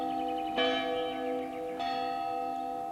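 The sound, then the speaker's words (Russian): A school bell rings with bright, sustained metallic tones. It is struck twice and keeps ringing steadily on its own, fairly loud throughout. “Вон звонок. Мне надо идти.”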